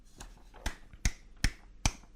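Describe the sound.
Slow handclaps from a single person: five sharp, evenly spaced claps at a steady unhurried pace, each a crisp isolated smack with quiet gaps between.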